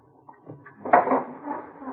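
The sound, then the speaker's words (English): A door is shut in an office: a single muffled thump near the middle, then soft rustling and a low rumble that fade out. “Close the door, huh?”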